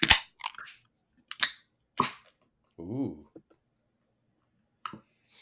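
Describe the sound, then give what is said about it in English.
A can of Palatmavi lager is cracked open: a few sharp, snapping clicks and pops of the tab, with a brief voiced sound in between and a last crisp click near the end. “It's a lager. Palatmavi lager. In 3, 2, 1, crack.”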